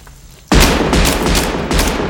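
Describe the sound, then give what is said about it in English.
Gunfire from a film scene in which a man shoots repeatedly to make sure a wounded victim is dead: after a quiet start, a sudden loud blast opens into dense, sustained shooting with a few sharper peaks. “De Niro's character is so exasperated that he pulls out the gun and starts shooting just to make sure this guy is dead”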